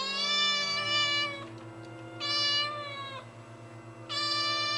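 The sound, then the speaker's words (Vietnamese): A tabby cat meows three times, long wavering cries like a crying child, each loud and tonal, separated by short pauses over a low steady hum. “Con mèo mướp kia nãy mới nhảy qua hàng rào, nay lại lững thững bước về bên hiên nhà. Nó hướng đôi mắt màu nâu đen nhìn vào bên trong rồi kêu lên vài tiếng, nghe như tiếng của trẻ con khóc.”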